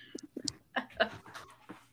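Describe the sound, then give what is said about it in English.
A dog pants in quick, uneven breathy bursts, moderately loud and irregular in rhythm, with no talk over them. “Oh, God. Dogs everywhere.”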